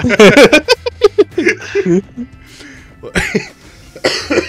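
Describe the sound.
Coughing from a person with a rough, irritated throat: a rapid burst of harsh coughs, then quieter throat sounds and a few more coughs after a pause.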